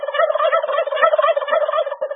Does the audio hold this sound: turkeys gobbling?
yes